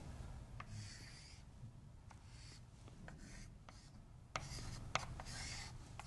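Quiet rubbing, scratching strokes of drawing cycles by hand, a steady soft scrape with a couple of sharper taps toward the end.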